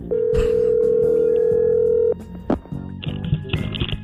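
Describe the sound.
Telephone dial tone while calling someone back: a steady, unbroken mid-pitched tone for about two seconds, cut off by clicks, then brief line noises and faint higher tones.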